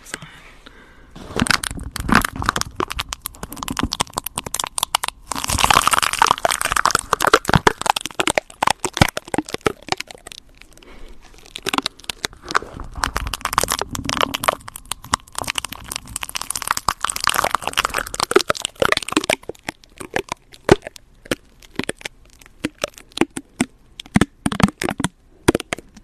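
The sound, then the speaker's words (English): Tape stuck on a microphone crackles and crinkles in many sharp, irregular crunchy pops and rustles, clustered in bursts with quieter gaps between them. “I have tape on the microphone if you guys are wondering what that sound is.”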